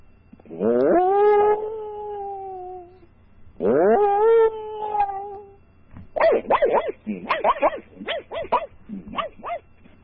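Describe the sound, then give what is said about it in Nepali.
A human voice imitates a dog: two long, drawn-out howls followed by a quick run of many short, sharp yelps and barks. “म caricature आज जनावरहरूको नै caricature गर्नु पर्यो। सुरुमा चाहिँ अब के भने कुकुरको गर्नु पर्यो”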